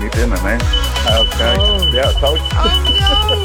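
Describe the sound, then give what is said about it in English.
A smoke alarm sounds as dinner burns in a house, a steady high-pitched tone running beneath loud, excited voices. “fire alarm going off in his house because he was burning his dinner.”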